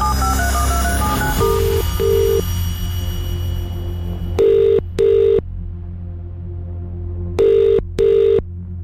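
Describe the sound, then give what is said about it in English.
A telephone number is dialled as a quick run of stepped keypad tones, followed by a short pair of beeps and then two double-burst rings, with a steady low hum underneath. “I have a telephone number ready to go. Let's dial it.”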